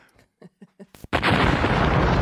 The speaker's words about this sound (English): Bomb drop.